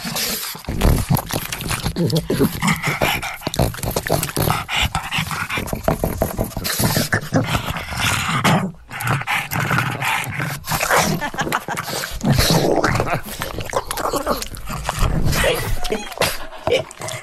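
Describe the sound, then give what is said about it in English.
A dog eats a banana, with loud, dense snuffling, smacking and chewing noises running almost without a break. There is one short pause near the middle. “that was the Queen eating a banana”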